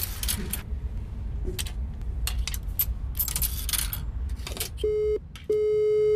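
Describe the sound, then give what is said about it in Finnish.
Phone call tones on a call that goes to voicemail: two clean, steady beeps near the end, the second longer, following a stretch of scattered clicks, rustles and clatter. “Mä soitan mun managerille. Puhelu menee vastaajalle.”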